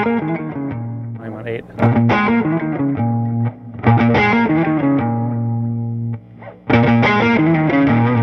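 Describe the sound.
Electric guitar through an amplifier turned up to volume seven, with slight distortion. Four loud, sustained ringing chord passages are separated by short gaps.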